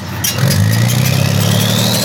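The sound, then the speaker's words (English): Heavy engine rumble from military tanks and armored vehicles driving away from northern Gaza, a loud, continuous low drone with a faint whine that slowly climbs in pitch. “The footage came as Israeli military tanks and armored vehicles were seen leaving northern Gaza.”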